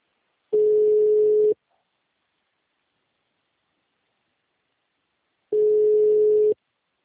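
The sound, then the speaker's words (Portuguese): A steady telephone line tone sounds while a call is placed to a client from a customer after-sales desk. It comes in two identical one-second bursts separated by about four seconds of silence, each burst even and moderately loud. “Deixa eu ligar para um cliente da DI para ver.”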